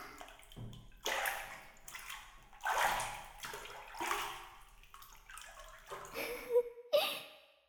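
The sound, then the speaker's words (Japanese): Water sloshing and swishing as bath lotion is stirred by hand into a filled bathtub, with several uneven splashy strokes that rise and fade in irregular rhythm. “これを湯船の中に入れて軽くかき混ぜると、”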